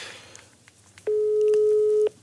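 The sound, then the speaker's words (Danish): An outgoing phone call sounds one steady, low ringing tone lasting about a second, preceded by faint clicks and a soft background hum. “Den ringer op nu.”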